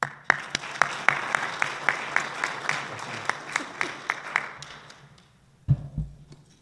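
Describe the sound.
Audience applause welcomes speakers at a forum on judicial selection. Clapping starts fairly full, then thins to many distinct, spaced single claps that fade away, followed by a short pause and a dull thump.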